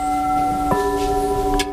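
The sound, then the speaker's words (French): Struck porcelain rings with clear, crystalline, bell-like tones that sustain evenly, and a light tap partway through sets off fresh ringing notes over the lingering hum. “Ce son-là, il n'y a que la porcelaine qui le donne.”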